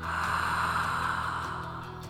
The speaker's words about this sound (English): Inhale.